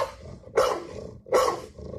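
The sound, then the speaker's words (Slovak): Two dogs of different breeds, one of them a pit bull, each give a single loud, rough bark, the two barks spaced apart over a low, steady background hum. “Takže púšťame dva teraz. Dvakrát štekot, dve plemená, dvoch psíkov a pýtam sa...”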